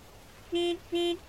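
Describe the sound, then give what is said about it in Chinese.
A black car stopped beside a bus lane honks its horn twice. The two short blasts are evenly spaced and steady in pitch, fairly loud over a faint background hum. “直到被一声鸣笛吵醒”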